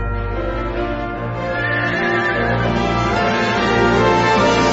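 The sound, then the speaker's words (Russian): A horse neighs in a loud, sustained whinny that carries through the whole stretch, with no talk over it. “ведь мой конь и есть тот самый Жальгирис. Садись на него, он тебя покатает.”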